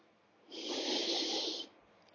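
A single deep inhaling breath, drawn steadily for about a second as a soft, airy hiss that swells and then stops, quiet and alone with no talk.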